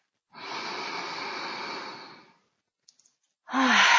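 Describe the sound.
A long, deep breath taken during a guided meditation: a steady, airy rush lasting about two seconds, then silence broken by a few faint clicks, and another strong breath starting at the very end.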